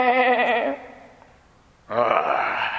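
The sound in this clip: Sheep bleating as a shepherd brings the flock home: two nasal, wavering bleats with a quiet gap between them, the first trembling in pitch and the second louder and breathier.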